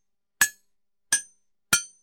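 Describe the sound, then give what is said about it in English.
Three sharp strikes of a ceremonial hammer against the glass of a computer terminal, each a bright, ringing clink that decays quickly. The hits come at roughly even intervals against silence. “A hooded figure approaches the terminal, raises a ceremonial hammer.”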